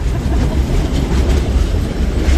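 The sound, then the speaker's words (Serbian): A train rumbles steadily along a railway line as it descends a hill, a dense, loud, continuous roar of wheels and carriages with no voices. “Putujemo dalje. Putujemo prugom spuštajući se nadole sa tog brda na kome smo”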